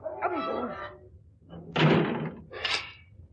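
A door is slammed shut and then locked: a heavy, loud thud, followed moments later by a second, sharper knock-like clank.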